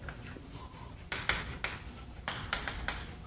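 Handwriting strokes as a math factorization is written out by hand: a series of short, scratchy strokes in quick bursts over a steady low hiss, with no voices.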